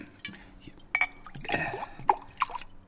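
Apple juice poured into glasses gives soft dripping and splashing with a few light glass clinks, brief and moderately quiet.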